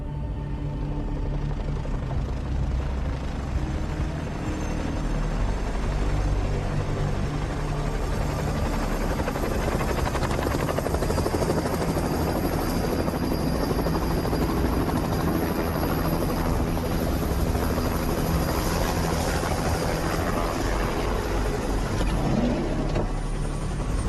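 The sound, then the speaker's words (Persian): A helicopter's rotor and engine roar loud and steady throughout, a dense, throbbing wash of noise with no voices. “هلیکوپتر نزدیک میشود. هلیکوپتر نزدیک میشود. اون اینجاست.”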